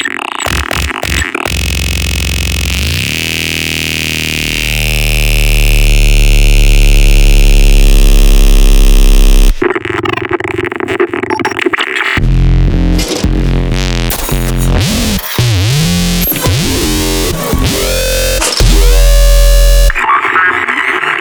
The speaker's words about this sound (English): For Headbanging Dubstep, press 3. You have selected Dubstep. Your new song is now being created.